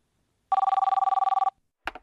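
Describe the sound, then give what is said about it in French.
A telephone rings at a police station in Nancy: a single loud electronic ring burst of about one second, made of a rapid trill of pulses, followed after a short pause by a brief clunk. “C'est un appel téléphonique au commissariat de Nancy qui change le cours de cette histoire.”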